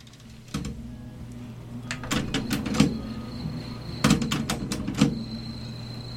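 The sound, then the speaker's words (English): Tape player mechanism clunking and clicking: several sharp mechanical clicks, some in quick clusters, over a steady low hum. “Love hearing the tape player noises.”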